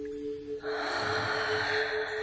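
A slow breath taken during a guided meditation breathing exercise. After a short pause it becomes a steady, airy rush of air that lasts about a second and a half, with no talk over it.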